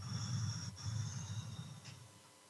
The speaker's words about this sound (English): Breathe, take a breath. Let go of them, just blow them out.